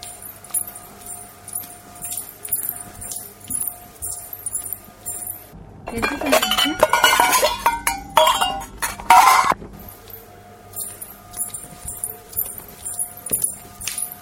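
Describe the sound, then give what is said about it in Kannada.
Pots and dishes clink and knock together as they are washed in a home kitchen. Scattered clinks run throughout, and a louder, denser stretch of clattering comes in the middle. No one speaks. “ಪಾತ್ರೆ ತೊಳೆದಿದ್ದಾಯ್ತು, ಇನ್ನೇನು ಮಾಡಬೇಕು?”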